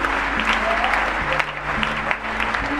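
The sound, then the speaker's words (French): A church audience applauds and cheers for Jesus at the close of a prayer. Loud, continuous clapping runs over steady, low sustained tones that shift pitch a few times. “On peut acclamer Jésus.”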